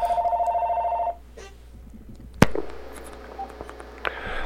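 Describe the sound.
A telephone rings for an incoming call: one burst of rapid trilling ring that stops after about a second, followed by quiet and then a single sharp click.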